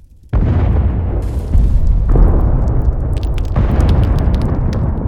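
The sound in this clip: Explosions blow up a farm in Minecraft: a sudden loud blast sets off a heavy, sustained roaring rumble, and a few more bursts surge in on top of it until the end.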